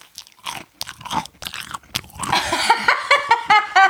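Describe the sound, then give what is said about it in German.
Crunchy biting and chewing right up against a microphone, with many wet crunches and mouth sounds in an irregular rhythm, growing denser and louder toward the end. “Ein Mensch, den wir kennen, der kann sehr gut am Mikrofon essen.”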